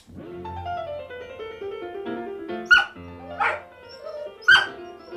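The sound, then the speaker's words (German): A dog howls along to recorded piano music from a Mozart concerto for three pianos. Three sharp, high cries rise above the sustained piano tones in the second half. “Ich habe Finot noch nie so jaulen hören. Er tut es auch nur bei diesem Konzert für 3 Klaviere von Mozart.”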